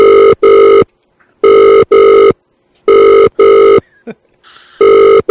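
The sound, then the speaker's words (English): Ringback tone of an outgoing telephone call: loud, steady electronic rings in evenly spaced double pulses, repeating about four times, with a brief faint click in one gap. “We should call that lady back. You know, the Kmart lady.”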